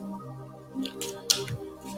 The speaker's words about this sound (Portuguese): Primeiro de tudo, vou tirar aqui uma cartinha.